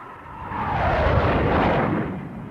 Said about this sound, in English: London Tower from Fireflash. Coming in now. Landing gear down and locked.